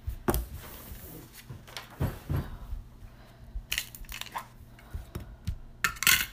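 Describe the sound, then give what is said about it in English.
Sleeved playing cards are shuffled by hand, giving a series of crisp, irregular rustling bursts and soft slaps separated by short pauses, with no talking. “Shuffle my cards. Do it now. I haven't played with sleeve cards in forever.”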